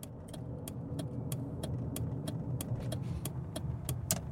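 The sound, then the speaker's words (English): Low steady rumble of a car on a morning drive to work, with many sharp faint ticks spaced at fairly regular intervals over the engine and road noise. “It is 7:27 a.m., and I am currently driving to work.”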